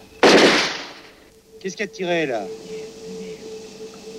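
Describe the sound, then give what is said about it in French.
A single loud gunshot during a nighttime guerrilla ambush: one sharp, sudden crack that decays over about a second, followed by a man speaking. “Qu'est-ce qui a tiré là?”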